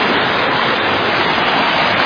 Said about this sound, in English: There's the creek. It's a little bit low today.